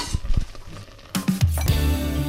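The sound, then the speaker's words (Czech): Apples, sugar and water being stirred in a pot as they cook, with a few knocks and scrapes against the pot followed by steadier bubbling noise, moderately loud. “Ano, promícháme hrnci a jdeme povařit. A vaříme zhruba 10 minut.”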